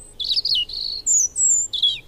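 A European robin chirps in a series of high, thin notes and short trills, several distinct calls separated by brief pauses, clear and fairly loud with no voices.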